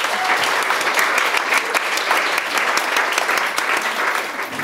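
Applause from an audience at Montalto welcoming a food writer and cook as a guest, a dense, steady clapping that carries on evenly for nearly five seconds.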